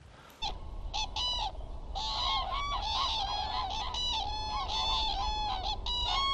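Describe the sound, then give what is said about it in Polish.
Cranes call while flying overhead, many loud overlapping trumpeting and honking cries repeating steadily over a constant low background rumble, with no talk. “Lecą żurawie.”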